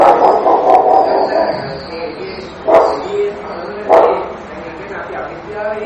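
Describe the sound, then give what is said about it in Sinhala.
A dog barks outside, a few sharp barks cutting through steady speech, with two louder bursts standing out in the middle of the stretch. “දැන් බල්ලා දුරනවා නේද? එළියේ බල්ලෙක් ඉන්නේ ඇයි?”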